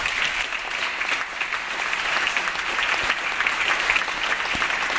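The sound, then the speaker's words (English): Sustained applause from legislators at a California legislative address, many hands clapping in a dense, steady wash that holds at an even level throughout. “I want to see a few Republicans clapping on that, if you could.”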